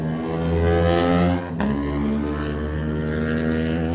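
Engine roar of an Aprilia RS660 race motorcycle pulling away from the start of a race, a loud, steady harmonic drone that briefly dips and breaks midway before carrying on.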